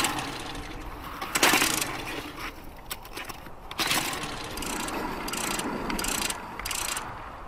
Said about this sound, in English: Despite having that fantastic lava lake down there, with all that energy, we still have to bring old petrol generators up to the crater rim.